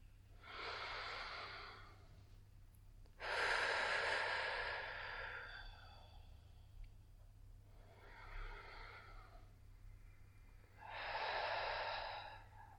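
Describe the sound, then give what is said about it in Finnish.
Deep breaths in and long breaths out through the mouth: four soft, airy breaths spaced by quiet pauses. The second breath is the longest and loudest. “Syvä sisäänhengitys ja pitkä uloshengitys suun kautta.”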